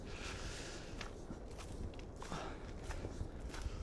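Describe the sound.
Footsteps of people walking outdoors along a path lined with tall conifer trees, a faint, steady series of soft crunching steps under a continuous rustling background.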